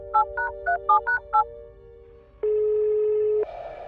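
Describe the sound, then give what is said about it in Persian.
A phone placing an outgoing call: six short keypad beeps in quick rhythm, a brief pause, then a steady one-second ringing tone, with a second, different tone starting just as it ends. “به فرزان زنگ میزنم”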